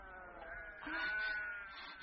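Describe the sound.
Sheep bleating at a well: a wavering, nasal bleat that swells louder in the middle and carries on for a couple of seconds, with no talk.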